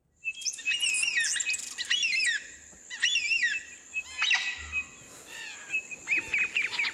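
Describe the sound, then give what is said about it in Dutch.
Endangered Australian birds call in many bright, high warbling and chirping phrases. The calls repeat in bursts with short pauses, and no voices are heard. “Staat vol met geluid van met uitsterven bedreigde Australische vogels.”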